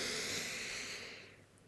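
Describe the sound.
A slow, deep inhalation makes a steady soft hiss, drawn in as an example of breathing deeply rather than shallowly. It is quiet throughout and tapers off over its second half.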